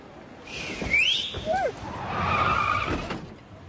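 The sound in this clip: A taxi's tires squeal and skid as it screeches to a stop, with a sharp high screech early on and then a longer, steadier squeal near the end.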